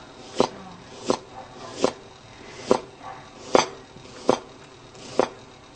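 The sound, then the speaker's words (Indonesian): A knife chops through a large onion, slicing it thinly: a steady series of sharp, crisp strikes, several seconds apart, with a few softer taps between them. “Selepas itu, bawang besar. Ini dipotong nipis dahulu.”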